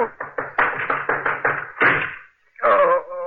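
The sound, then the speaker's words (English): A person runs into a desk and smashes it: a rapid run of thumping footfalls ends in a heavier crash, then after a short pause a second clattering burst of wood breaking. “the shot's missed, but I certainly smashed up that desk I ran into.”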